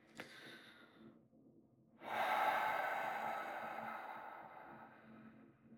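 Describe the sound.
Close breathing into the microphone: a brief sharp catch of breath, a quiet pause, then a long, airy, rushing breath that swells and slowly tapers over several seconds.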